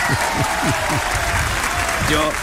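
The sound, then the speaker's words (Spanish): Applause from an audience honoring two performing artists: dense, steady clapping that holds at an even level throughout, with a voice talking over it. “Es aplauso para ellos, por la única.”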